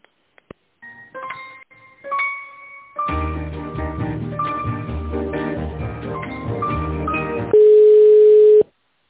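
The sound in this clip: Telephone line tones while a call is transferred to a tenders manager at a company: a few short electronic beeps, then a busy tinny hold melody, ending in a loud steady tone, with no talking.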